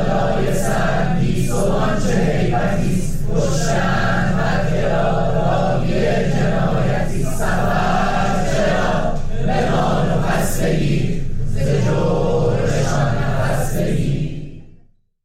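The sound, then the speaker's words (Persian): Students from the chemical, petroleum and computer engineering faculties of Sharif University sing the protest anthem "Zan" together during a sit-in. Many voices chant and sing in unison, loud and sustained throughout, with rhythmic swells before the sound cuts off. “دانشجویان دانشکده های مهندسی شیمی و نفت و کامپیوتر دانشگاه شریف هم دست به تحصن زد و دست جمعی سرود زن رو خوندن با هم که میشنمیم قسمتیش رو.”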